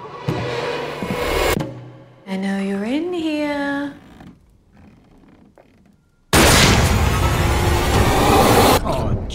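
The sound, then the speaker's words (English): Gunshot from the film Ready or Not: after people talk and a quiet pause, a sudden, loud blast breaks in and is followed by a sustained burst of loud noise. “Jesus, you shot the maid.”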